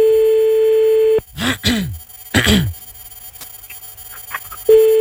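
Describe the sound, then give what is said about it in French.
A steady ringback tone sounds on a telephone call, then stops. A few short vocal groans and breaths follow before the tone returns at the end. “Ça sonne, hein.”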